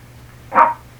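A dog gives a single short bark, a sharp mid-pitched burst that rises and fades within a quarter second. It stands alone over a faint, steady low hum.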